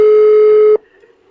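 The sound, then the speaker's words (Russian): A steady telephone line tone sounds while a call to a relative's phone in Russia is being placed. It holds level for under a second, then cuts off, leaving faint background. “Мы прямо сейчас попытаемся дозвониться и отцу Хабиба Нурмагомедова. Алло?”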